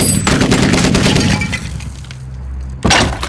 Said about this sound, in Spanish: Haré otro tiro porque hablaste. Ya disparaste. Yo dispararé ahora.